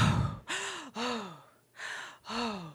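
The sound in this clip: A woman's voice imitates an upset child taking deep breaths, with a breathy rush followed by four gasping, sighing breaths that carry an arching voiced pitch, separated by short pauses.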